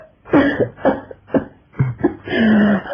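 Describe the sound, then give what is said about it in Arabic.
A series of harsh, chesty coughs from someone irritated by smoke from wet firewood, in a radio drama. The bursts come in quick, uneven clusters and end in a longer, rasping cough. “حطب كان مبلول ودخن خلاني كحيت.”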